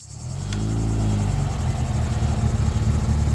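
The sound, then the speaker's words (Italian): A luxury car's engine roars in with a low, rumbling drone that swells quickly at the start and then holds steady and loud to the end. “il rombo di una macchina la sveglia di soprassalto.”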